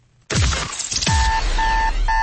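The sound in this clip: Alarm clock beeping: three plain electronic beeps in an even on-off rhythm, the last cut short, after an opening burst of thumps and clatter.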